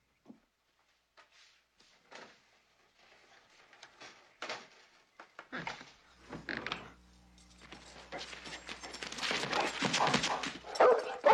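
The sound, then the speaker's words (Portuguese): Dog barking and whimpering in a dubbed film scene: short scattered yips and barks, faint at first, building into a louder, denser stretch of barking near the end. “Ah, seu cachorro idiota! Não. Seu cachorro idiota!”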